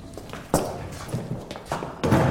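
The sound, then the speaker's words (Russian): A chair is turned upside down and set onto a table: a few knocking thuds and scrapes of furniture meeting the tabletop, alone with no speech. “Он подходит к очередному столу и ставит, переворачивая на него стул.”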